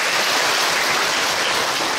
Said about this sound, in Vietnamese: Phải thì cho anh tràng pháo tay đi chứ à.